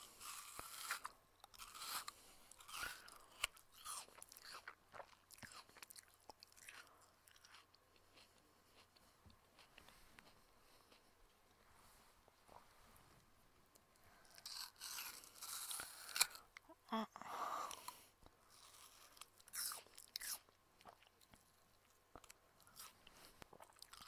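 Crisp bites and chewing of a big apple eaten whole rather than cut: many small crunches, mostly faint, with a louder cluster of bites toward the middle.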